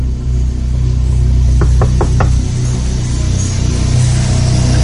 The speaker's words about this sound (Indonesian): Aku pun dekati pintu itu dan astaga, aku lalu mengetuk pintunya. Siapa di dalam?